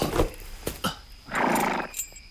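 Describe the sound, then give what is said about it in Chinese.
A horse, tired after a long journey, gives a short whinny among a few brief, faint snorting sounds, all alone without any talk. “这马儿也累得不行了，我去找些草料给他。”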